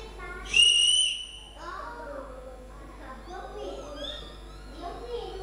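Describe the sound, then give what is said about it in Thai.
A whistle is blown in one shrill, steady blast lasting under a second, loud and high-pitched, and is followed by softer, varied voices. “เสียงอะไรคะเสียงอะไรคะเสียงเป่านกหวีดนั่นเอง”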